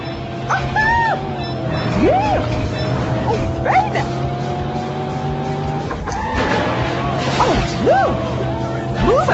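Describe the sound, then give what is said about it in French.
Reckless car driving in an arcade driving video game: a steady electronic engine drone runs throughout, with several short swooping tones that rise and fall, like tire squeals, over a constant tonal background. “C'est ça qui vient avec un jeu d'arcade. On peut conduire n'importe comment, ça marche.”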